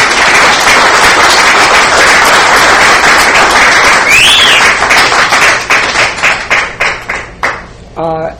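An audience applauds to welcome a guest author into a clubhouse event, loud dense clapping with a brief whistle partway through, then thinning into scattered separate claps that die away.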